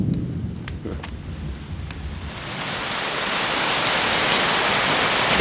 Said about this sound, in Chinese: 怎么回事？正是这么大的雷啊，吓我一跳。要下雨了。